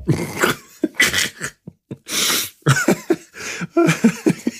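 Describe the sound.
Someone coughs hard after choking on something swallowed. Harsh, loud coughing fits come in repeated bursts, with gasping breaths and throat noises between them.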